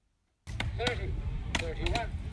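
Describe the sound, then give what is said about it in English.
Wood being chopped at the Riverton show: a few sharp, ringing blows in uneven rhythm over a low continuous background rumble. “30, 31, 32, is wood chopping. And this was at the Riverton show a couple of weeks ago.”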